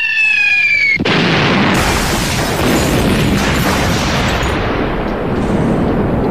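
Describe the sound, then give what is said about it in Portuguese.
An explosion sound effect cuts in after a brief tonal passage, then a loud, dense roar holds steady for several seconds without fading. “Explodiu.”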